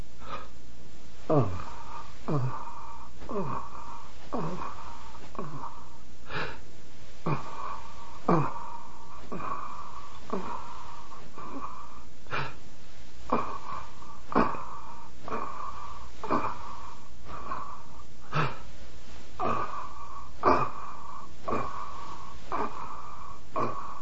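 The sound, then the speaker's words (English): Breathing exercise: one rapid inhale, then a series of forceful exhale bursts paced with arm thrusts. Many short, sharp breath pulses repeat at a steady rhythm over a faint continuous hum, with no talking. “Rapid inhale on one thrust of the arm and then a series of thrusts during the exhale.”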